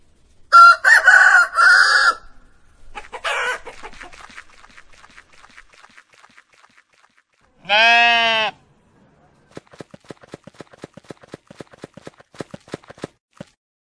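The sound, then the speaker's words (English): A rooster crows loudly in bursts near the start, followed by a single bleating call and then a long run of clip-clop hoof beats. “chicken.”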